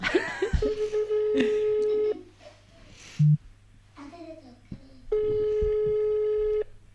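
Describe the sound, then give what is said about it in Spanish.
Ringback tone of an unanswered telephone call: two long, steady, buzzy tones, each about a second and a half, separated by a quieter gap with a brief low beep between them. “A ver. Hay que coger el teléfono. Oh. Ay, pero ya sé por qué no lo coge. Claro, la gente está ocupada.”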